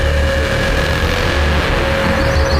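A Japanese truck drives by with a steady, loud, low engine rumble and drone that holds constant throughout, with no voices over it.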